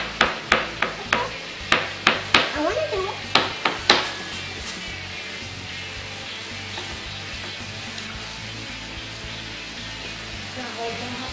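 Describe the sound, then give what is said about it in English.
Food is chopped up in a kitchen: a quick series of about ten sharp, crisp chops over the first four seconds, then a steady hiss that lingers on its own afterward. “We're going to actually chop this up.”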